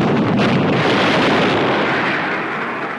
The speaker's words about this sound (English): Time and again, deadly fire like this from large and small ships of the fleet helped hard-pressed troops.